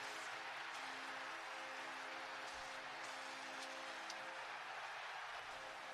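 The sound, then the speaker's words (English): Steady, dense crowd roar fills a Brooklyn arena at the Barclays Center during a playoff game, a loud unbroken wash of many voices with a low hum beneath and no single voice standing out. “you can hear the crowd. It's crazy.”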